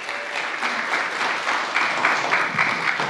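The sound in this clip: A church audience applauds to welcome a speaker coming up to share her story. The clapping is brief, even and sustained, with no talking over it.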